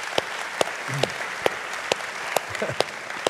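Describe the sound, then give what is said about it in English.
Church audience applauding to welcome each other, with about eight loud, evenly spaced claps falling in a steady beat over a softer continuous patter of hands. A voice is briefly heard. “Come on, church, let's put our hands together. Welcome each other today.”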